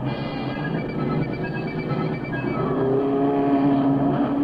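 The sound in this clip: Race car engines roar on a speedway track late in a two-hour race, a loud, continuous, buzzing drone with sustained engine tones that grows slightly stronger toward the end.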